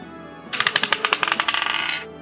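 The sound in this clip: Dice rattle across a table during a tabletop game roll, producing a rapid burst of many bright clicks and clatters that tumble over about a second and a half before settling.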